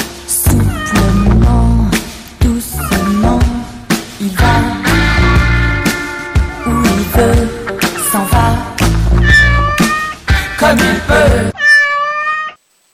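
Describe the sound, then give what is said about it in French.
A cat meows again and again, many loud, drawn-out harmonic cries following each other in quick succession, with no talking. “C'est un chat. Il aime les lumières de la nuit.”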